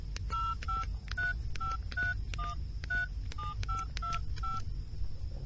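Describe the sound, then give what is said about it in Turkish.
Touch-tone keypad beeps as a mobile phone is dialed: a quick, fairly even run of many short electronic tones at shifting pitches, quiet over a low steady hum. “Dur şunu cep telefonundan bir arayayım. Bakalım şu anda neredeymiş.”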